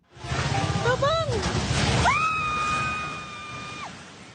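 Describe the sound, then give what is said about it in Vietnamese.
A fast-food restaurant branch collapses onto a street in General Santos during an earthquake, a loud, noisy crashing roar with people screaming, ending in one long sustained scream over a fading rumble. “Âm thanh đó là từ đoạn phim ghi lại cảnh một chi nhánh của chuỗi nhà hàng thức ăn nhanh nổi tiếng Jubilee sụp đổ xuống đường trước sự chứng kiến kinh hoàng của những người dân ở thành phố General Santos vào thứ Hai.”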